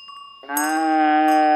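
A cow moos once, a single long, steady, low moo that starts abruptly and holds strong to the end, preceded by a faint bell-like ringing tone.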